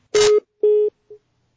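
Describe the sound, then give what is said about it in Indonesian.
Telephone line tones follow a caller's dropped call to an Islamic radio question program: two steady mid-pitched beeps, then a shorter, fainter third, with nothing else around them. “mohon maaf terputus sambungan teleponnya dan kami belum bisa tangkap secara jelas pertanyaannya”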